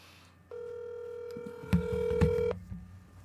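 A single ringback tone from an outgoing telephone call: one steady, buzzing tone lasting about two seconds. A couple of low thumps sound near its end, and faint background noise follows.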